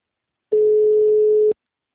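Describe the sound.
A telephone busy tone after a dropped call: a single steady, mid-pitched electronic beep lasting about one second, clean and alone, with silence before and after it.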